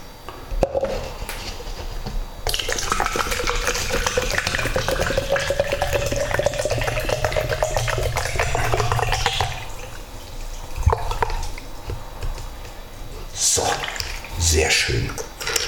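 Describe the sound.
Water pours into a glass in a steady, splashy stream for several seconds. Its tone rises in pitch as the glass fills, then gives way to quieter, scattered handling sounds.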